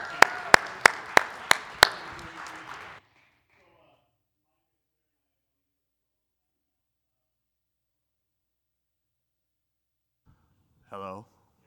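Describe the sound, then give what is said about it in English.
Church audience applauding to welcome a guest preacher at St. Peter: a dense patter of clapping with six sharp, loud claps standing out for about three seconds, then silence until a brief voice near the end. “So why don't you give him a nice, warm St. Peter welcome?”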